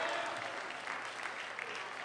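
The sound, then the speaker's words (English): Congregation clapping hands during a church service, a faint, steady wash of many claps blending into an even texture with no clear breaks. “If you're the person, let your hand clap be the loudest and give God a mighty shout of praise.”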